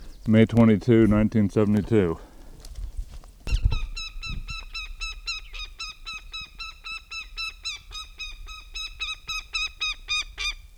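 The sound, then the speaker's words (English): Goshawk calling at its nest: after a brief spoken voice, a long series of rapid, harsh, high-pitched cackling calls repeats in steady bursts to the end. “goshawk at nest”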